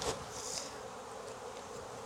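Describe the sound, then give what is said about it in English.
Honeybees buzzing in an open hive during an inspection, a soft, steady, high hum of many insects with a few slightly louder swells near the start. “There's more bees in here, but it looks more complete.”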